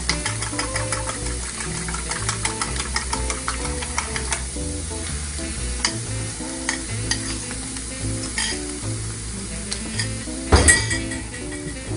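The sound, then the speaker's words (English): Eggs sizzle steadily in a hot pan as they are scrambled with a fork, with many light scraping and tapping strokes over the frying. A sharper metallic clink stands out near the end. “There. So now that my eggs are in there, I'm going to add just a touch of salt, not too much, a little bit of black pepper. I'm just going to scramble these up”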